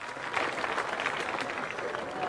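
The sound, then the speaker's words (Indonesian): A group bursts into loud, dense applause. Many hands clap quickly and steadily through the whole short clip with no clear pause. “Tepuk tangan keras.”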